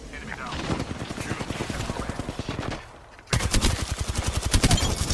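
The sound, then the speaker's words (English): Rapid automatic gunfire in a video game comes in fast, evenly spaced shots, then stops briefly and returns as louder, denser bursts. “Somebody else is shooting at me.”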